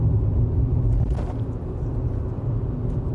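Low, steady engine and road rumble from a car being driven, a dense continuous drone heard alone without voices.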